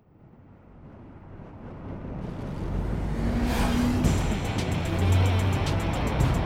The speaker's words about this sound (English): The Pacific Coast Highway was built for this 75 Corvette Stingray, and the vet flew.